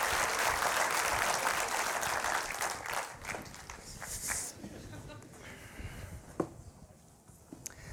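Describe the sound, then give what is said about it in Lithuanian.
Applause welcoming Lithuania's police commissioner general onto a stage: loud, tightly packed clapping for the first few seconds, then it thins to scattered claps and shuffling movement. “Pasitikime plojimais. Generalinis Lietuvos policijos komisaras Linas Pernavas.”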